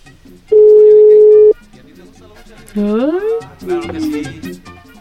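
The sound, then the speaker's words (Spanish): A telephone line connecting for a radio call-in: one loud, steady beep-like tone lasts about a second, then a voice speaks. “Ya se enlazó la llamada, la sacamos al aire.”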